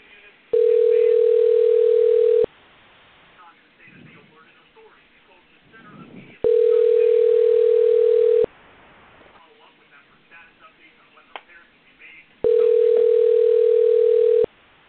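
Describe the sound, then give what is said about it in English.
A telephone ringback tone plays on the line while a call is being placed: three steady, loud, mid-pitched tones, each about two seconds long, separated by pauses of roughly four seconds. Faint background noises fill the gaps. “It's dialing.”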